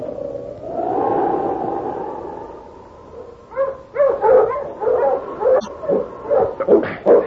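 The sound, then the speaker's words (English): A hound barks: a long, wavering whine gives way to a rapid run of many loud, sharp barks and yips. “Hey, shut up, you noisy hound.”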